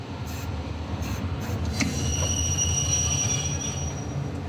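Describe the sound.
Wheel squeal from a locomotive on rails making a short halt near Koblenz. A steady, loud rolling rumble runs throughout, and high, thin screeching tones join about halfway and hold to the end.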